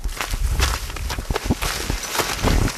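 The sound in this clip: A boy's footsteps as he walks up to school on his first day, a steady series of fairly loud steps with some rustling between them and no talk.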